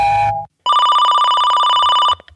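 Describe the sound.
A telephone rings for an incoming call to a radio call-in show. After a brief tone there is a short silence, then one loud, sustained, rapidly trilling ring lasting about a second and a half.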